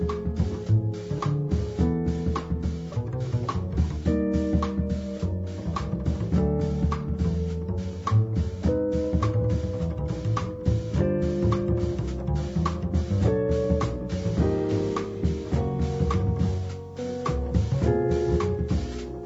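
Music by a North American guitarist and composer, guitar-led and continuous, with rhythmic plucked attacks and shifting harmonic notes at a steady, moderate level.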